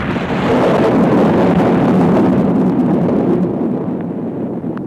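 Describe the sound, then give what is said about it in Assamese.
Thunderstorm sound effect in a drama: a loud, continuous, broad rumbling roar that holds steady throughout without distinct cracks, easing slightly toward the end, with no voices. “আকাশত ঘন ঘোৰ কলীয়া দাও, ঘনে ঘনে মাৰিছে বিজুলী, যেন হব শিলাবৃষ্টি আৰু বজ্ৰপাত।”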